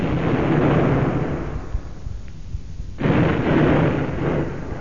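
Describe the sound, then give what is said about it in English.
A ship's gun fires two heavy booms in a radio drama. Each blast gives a broad, deep roar that rumbles on and fades, and the second comes about three seconds after the first. “Fire one more over him, Mr. Phillips, just to keep him off while we scarper. Aye, aye, sir. Fire two, Chief. Fire two, sir.”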